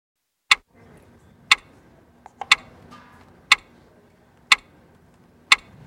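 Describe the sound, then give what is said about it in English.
A clock ticks sharply and evenly, six crisp ticks about a second apart, with a couple of fainter clicks slipped in between and a quiet background otherwise. “Do you hear that? Do you hear that clock? That is the sound of time ticking on a trade deal as the March 1st deadline approaches”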